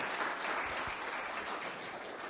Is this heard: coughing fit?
no